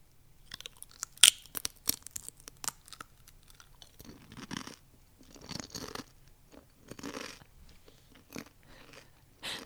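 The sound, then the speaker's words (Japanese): Potato chips being eaten: many crisp, irregular crunches and bites, quiet and close, continuing throughout with short pauses between mouthfuls. “じゃあ最後チップスでも食べて終わりますか”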